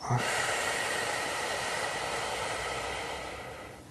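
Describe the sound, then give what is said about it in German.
A deep breath in and out, taken during a guided meditation, makes a long, steady airy hiss that fades gradually toward the end. “Wir nehmen gemeinsam einen tiefen Atemzug und atmen ein und wieder aus.”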